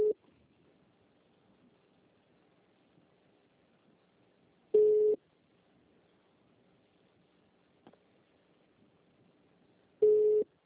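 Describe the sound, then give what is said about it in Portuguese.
A telephone ringback tone sounds while a call is being placed: a few steady, identical beeps, each about half a second long, spaced roughly five seconds apart, with faint low background hum between them. “Gente, deu tilt, você começou a chamar agora. Tá tudo como se eu estivesse ligando pra ele.”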